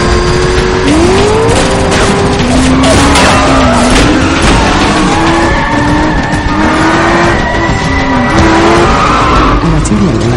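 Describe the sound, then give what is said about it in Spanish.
A Corvette speeding around a corner onto a main street in a film car chase, its tires skidding with a wavering squeal over a constant loud engine roar. “El Corvette dobla la esquina hacia la calle principal. El Shield intenta arrancar el bus mientras el coche se acerca a todo gas.”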